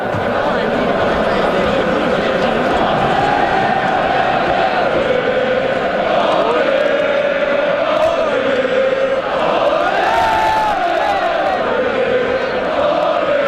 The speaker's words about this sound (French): On s'échauffe, oui, on fait nos vocalises de partisans. Le volume devient très élevé très vite